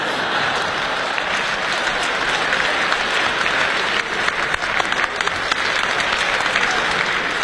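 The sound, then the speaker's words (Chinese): Audience applause at a Chinese crosstalk comedy show in Beijing, a thick continuous patter of many hands that stays level for over seven seconds with only a brief dip midway. “谢谢大家的掌声，谢谢。”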